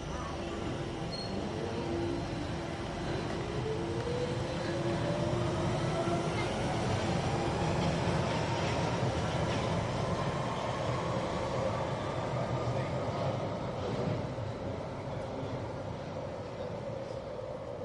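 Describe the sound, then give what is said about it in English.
A train rumbles past with a loud, steady roar that holds throughout, and a faint tonal squeal slowly climbs in pitch over the noise. “I've just got to catch this train.”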